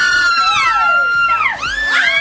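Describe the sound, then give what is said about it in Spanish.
An excited fan lets out a long, shrill scream of delight, its pitch sweeping down and then swooping back up in wavering glides, loud and alone for the whole stretch. “Ahí les va el grito.”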